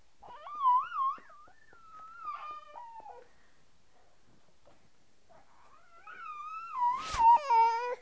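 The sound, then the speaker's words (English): Whining from a baby in need of a diaper change, a thin, wavering, high-pitched wail in drawn-out bursts that fades in the middle, then swells again near the end, where a brief noisy burst cuts in. “I'm getting kind of tired of this constant whining. What is going on?”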